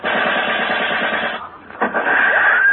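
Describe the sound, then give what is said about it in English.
Rapid machine-gun fire crackles on an army infiltration course, a loud steady rattle that breaks off into a brief lull before loud noise resumes. “Hey, those are bullets. Yeah, are we being shot at?”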